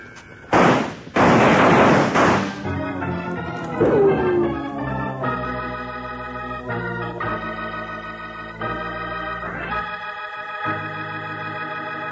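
A gunfire sound effect from an old radio western opens with two loud, sharp bursts of shooting. A brief falling whine follows, then music plays on steadily for the rest.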